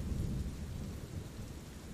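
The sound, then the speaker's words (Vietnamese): Heavy rain pours down outside in a dense, steady roar with a deep low rumble beneath, as in a strong storm with wind, continuous and fairly even in loudness. “Ngoài trời đang mưa to gió lớn”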